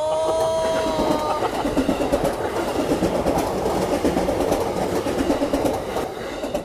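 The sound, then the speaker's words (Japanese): A train rumbles past a railway level crossing between Tabata and Komagome in Tokyo, a steady loud roar with the rhythmic clatter of wheels throughout; a few clear tonal notes sound briefly at the start. “西日暮里、田畑、そして駒込との間にある踏切に到着したということでこちらもお聞きください”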